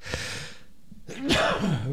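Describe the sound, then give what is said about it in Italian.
A single sneeze: a quick breathy intake and then a sharp, loud burst that trails off into a voiced, falling exhale. “Ha fatto lo starnuto. Ha starnuito, purtroppo”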